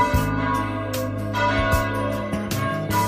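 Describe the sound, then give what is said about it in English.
Bells ring out in a series of resonant clanging strikes, several onsets layered over a sustained, shimmering hum of overlapping tones that stays loud and steady throughout, with no voices. “Ring them bells”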